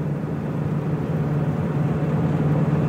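An AMC AMX muscle car is being driven, its engine a steady low rumble that holds a constant, even drone with no voices over it.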